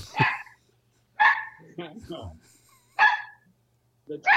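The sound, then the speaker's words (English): A gigantic dog with a throat infection gives four harsh, barking coughs, evenly spaced, and a person talks between the coughs. “The dog is actually gigantic. it's got a throat infection.”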